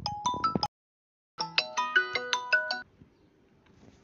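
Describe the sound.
A mobile phone ringtone from an incoming call: a bright, melodic string of chiming tones in a short phrase, a brief silence, then a longer repeating phrase, after which only faint low background remains.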